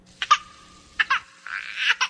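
A newborn baby cries just after birth, in a few brief, high, whimpering bursts. A longer breathy wail follows, then one more short cry.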